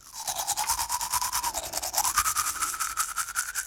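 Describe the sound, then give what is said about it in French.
A toothbrush scrubs teeth at bedtime in a fast, steady rhythm of many short back-and-forth strokes, each with a wet, bristly hiss. “Le soir, avant de dormir, je me brosse les dents.”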